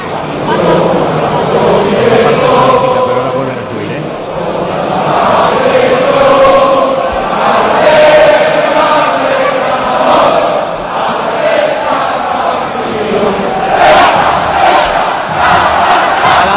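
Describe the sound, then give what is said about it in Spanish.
Stadium crowd singing the football club anthem a cappella at Balaídos before Celta de Vigo meet Sevilla. A broad, sustained mass of voices carries the melody loudly and steadily for the whole stretch. “Me gusta cómo suena a capela el himno.”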